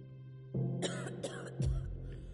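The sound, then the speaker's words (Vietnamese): A young girl coughs several times after being choked by the throat. A low throaty rasp is followed by a few sharp, harsh coughs in quick succession. “Bảo Nhi ho lên vài tiếng”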